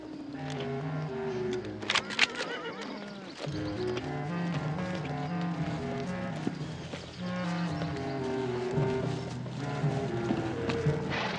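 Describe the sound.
A prancing horse near a cattle pen, its hooves clopping and shuffling in an uneven rhythm, joined by a sustained musical score and a few sharp clicks.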